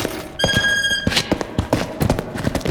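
Hooves of a horse pulling a cart clip-clop in an irregular run of dull thuds and taps, with a brief high tonal sound early on.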